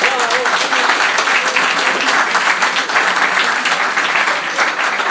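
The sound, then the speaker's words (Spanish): Applause from an audience after a timed challenge, a dense, loud wash of clapping that stays steady across the whole stretch without breaks. “¡Un aplauso!”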